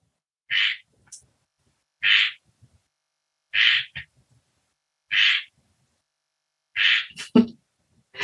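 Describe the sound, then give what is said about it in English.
A frog croaks outside a window in five short, evenly spaced calls separated by quiet gaps, with a few faint clicks between them. “Or you can just laugh if you're hearing the frog outside my window.”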